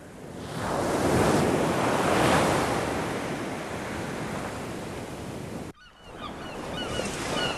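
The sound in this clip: Ocean waves break on a rocky shore in a steady, loud roaring wash with wind noise. The surf swells early, holds a continuous rumble, then cuts out briefly and resumes.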